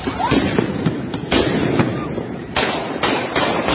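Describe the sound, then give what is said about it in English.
Gunshots ring out as shots are fired at police, a rapid, irregular series of sharp, loud cracks following each other over a few seconds. “Oh, they shoot guns at him, real guns. They're blasting at the police. Shots fired.”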